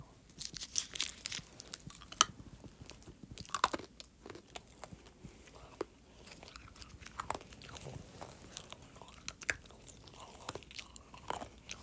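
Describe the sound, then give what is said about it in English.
Plastic snack package being wrestled and torn open, giving a long, irregular stream of sharp crinkles, crackles and crunchy tears, fairly faint throughout. “This is not ASMR, I genuinely cannot get the package open. Okay, there we go.”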